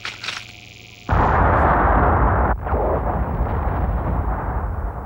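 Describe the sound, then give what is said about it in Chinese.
An explosion near the command room erupts during an animated space battle. A sudden loud blast is followed by a sustained, dense roaring rumble, with a second sharp burst cutting in a bit later. “看到没有，爆炸了， 那一带是司令室那边，不能错过这个机会。”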